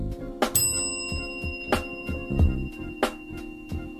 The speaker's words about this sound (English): I'm going to ring the bell for Goldsby.